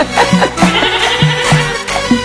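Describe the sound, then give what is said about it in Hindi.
Goats bleat in a loud run of short, nasal calls that repeat at an uneven pace over a dense background of noise. “Uncle की बकरियां बे बे कर दी।”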